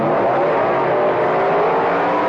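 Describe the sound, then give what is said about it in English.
Nitromethane-burning funny car drag racing engines, Dodge and Chevrolet, roar in a loud, steady, unbroken blast of revving with no talk over it. “The wild funny cars are coming. It's the grand opening funny car championship meet. Strong nitromethane burning Dodges from Detroit. Screaming lightweight Chevrolets from Chicago.”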